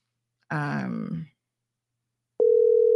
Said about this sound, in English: we're going to see if we can get a hold of our team member now to see if he's able to take a phone call